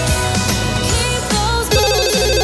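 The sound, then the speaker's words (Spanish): A telephone ringtone sounds as callers phone in to a live sports radio show: a loud, steady electronic jingle with a repeating melodic pattern and beat-like pulses, playing throughout with no voices. “Veo, amigos que también están llamando por teléfono. Espérate que lo cojo, a ver, un segundo.”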